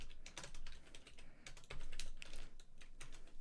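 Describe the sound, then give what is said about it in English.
Rapid clicking of typing on a computer keyboard, faint and quick keystrokes arriving in uneven bursts throughout. “I didn't get it because I typed slow”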